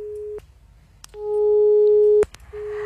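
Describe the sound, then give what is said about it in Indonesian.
Telephone busy signal from a call that fails to connect: a steady mid-pitched tone sounds in a few separate bursts of uneven length with short gaps between them, the middle burst longest and loudest. “Andi Sanga belum bisa tersambung”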